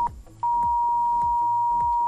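A phone call's disconnecting tone: after a couple of short beeps, a steady mid-pitched tone holds without a break over a low, regular thumping pulse.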